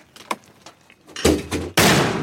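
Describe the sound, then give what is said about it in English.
A mortar round fired by Marines from a metal tube on a tripod, heard as a few soft knocks followed by two sudden, loud, rumbling blasts in quick succession. “The round rises high up into the sky and drops down onto the target with a deafening explosion. Boom, a mortar hit here.”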